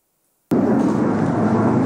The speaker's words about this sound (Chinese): 战斗机高速飞过，精准帅气着陆，国际局势不稳，日本航空自卫队加紧训练。